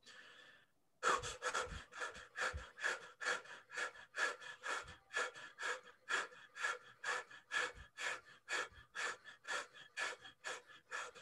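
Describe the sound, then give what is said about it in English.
Fire breath, a breathing exercise of quick short breaths in through the nose or mouth and out through the mouth, driven by the belly. Many sharp, even puffs follow one another in a steady, rapid rhythm, with no talk over them. “Let that belly guide. This is a fire breath.”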